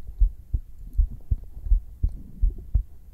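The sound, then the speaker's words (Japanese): A heartbeat is picked up on bare skin through a binaural microphone: many soft, low, thumping beats in a steady paired lub-dub rhythm, heard alone and clear. “心臓の音聞けるとね、ドキドキしちゃうね。”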